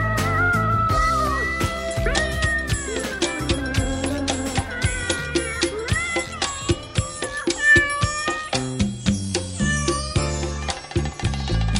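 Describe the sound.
Cat meowing, loud and repeated many times, with dense layered tones running continuously underneath.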